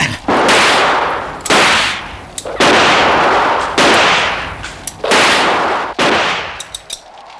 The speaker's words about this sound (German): Ich will versuchen, sie mit Schüssen zu vertreiben.